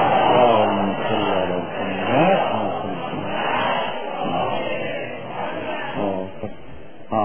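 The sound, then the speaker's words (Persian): An audience recites salawat in unison at a religious gathering, many voices chanting together in a loud, continuous, rolling drone with rising and falling swells. “خیلی خوب، پس مبارک باشه، صلوات بگیرید.”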